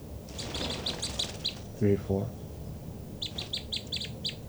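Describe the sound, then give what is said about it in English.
Birds call in quick runs of high, thin chirps, one cluster in the first second and a half and another near the end, over a soft steady background hiss. “Both birds. So recording the birds again.”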